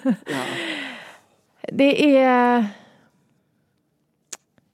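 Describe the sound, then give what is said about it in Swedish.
A deep breath drawn and let out audibly as two long, voiced, sigh-like breaths in quick succession, followed by quiet with a couple of faint clicks. “Jag får ta ett djupt andetag”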